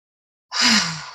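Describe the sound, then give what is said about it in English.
A single deep breath during a guided breathing meditation. After half a second of silence comes one fairly loud, breathy, sigh-like exhale with a faint voiced tone that slowly fades. “Now go ahead and take 6 deep breaths.”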